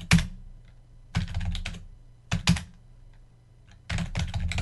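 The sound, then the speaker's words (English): Typing on a computer keyboard, entering words into a notepad, comes in four separate bursts of rapid clicking key presses with quiet pauses between them. “Let's type some words.”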